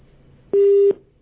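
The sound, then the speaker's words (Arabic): Telephone line tone after a phone call is cut off: a steady mid-pitched beep lasting under half a second, followed by a short gap before another beep begins. “قطع الاتصال مع رقية، معنا اتصال آخر.”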